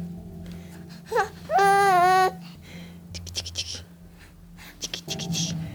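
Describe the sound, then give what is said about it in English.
A 5-month-old boy's babbling comes out sounding like crying: a few short high squeaks, then one long wavering wail in the middle, followed by quieter murmurs and low background noise. “Her baby, he was 5 months old at this point. It's too bad, he sounds like he's crying the whole time on tape, but really he was just trying to blab at me, smiling the whole time.”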